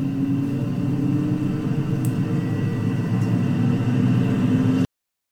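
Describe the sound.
Airplane taking off: a steady low engine rumble with a faint constant hum, holding level and swelling slightly before cutting off abruptly.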